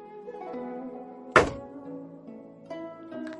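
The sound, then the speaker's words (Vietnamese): A main door kicked open lands as one heavy, sharp thud that fades quickly, set against soft sustained music that continues before and after. “Cửa chính bị đá bay, một bóng người lao vào.”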